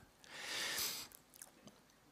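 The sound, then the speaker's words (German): A short, breathy slurping sip of a drink lasting under a second, followed by faint small mouth sounds, all quiet. “ich nehme einen Schluck”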